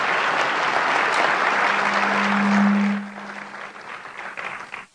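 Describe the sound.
Dense audience applause at a SUNY New Paltz distinguished speaker series event welcomes the college president. The clapping is loud and steady for about three seconds, then thins to a lighter patter.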